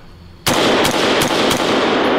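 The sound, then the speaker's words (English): Gunshots at a shooting range with steel targets: four sharp, loud cracks at a fairly steady pace, roughly a third of a second apart, over a constant loud noise bed that starts abruptly with the first shot. “Let's shoot some steel, because that's who made that one. Let's shoot it again.”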